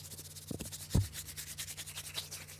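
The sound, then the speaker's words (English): A card rubbed back and forth against a man's beard makes a dry, scratchy rasp in many quick repeated strokes over a low steady hum, with a couple of soft thumps early on. “So I just got to close your eyes and rub it against your beard.”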